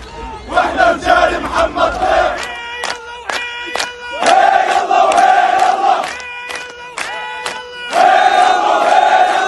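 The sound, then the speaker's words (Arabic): A crowd at a street march in Ramallah in the West Bank chants pro-resistance slogans. Loud, rhythmic unison shouting is repeated phrase after phrase with brief breaks between. “وعمت المسيرات مدينة رام الله وسط الضفة، ردد خلالها المواطنون عبارات تحيي المقاومة وعلى رأسها قائد كتائب القسام محمد الضيف.”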